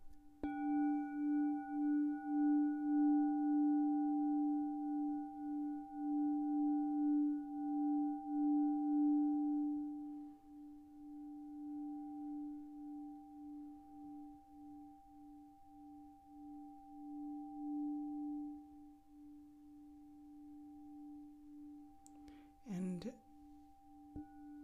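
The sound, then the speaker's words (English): Sustained sound bath healing tones ring out as steady, pure pitches layered in a few harmonics, louder over the first ten seconds and then softer, with a brief sweeping chirp near the end. “Oftentimes, people refer to this type of sound healing as a sound bath.”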